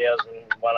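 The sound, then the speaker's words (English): The turn-signal blinker of a brand new 780-horsepower Mack truck ticks twice, two brief sharp clicks heard between stretches of a man talking. “What's the TikTok? That noise is the blinker.”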